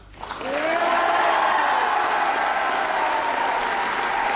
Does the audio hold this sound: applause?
yes